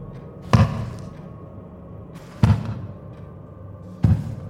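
Three dull knocks during a séance-style session calling on a spirit, evenly spaced about two seconds apart, each a short low thump over a quiet hissing background.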